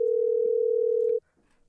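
Telephone dial tone while calling a voicemail number: a steady single-pitched hum holds loudly for just over a second, then cuts off abruptly, leaving faint low noises afterward.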